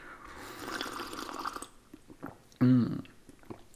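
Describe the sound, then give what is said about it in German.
Sipping a caffeinated apple spritzer: soft wet mouth and liquid noises, then a short, louder burst toward the end, with no talk. “So, jetzt muss ich aber erstmal ein Schlückchen trinken hier. Koffeinhaltige Apfelschorle”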